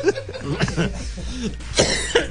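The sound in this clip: Harsh coughing after a throat-straining effort: a few rough, throaty bursts mixed with voiced sounds and brief vocal noises.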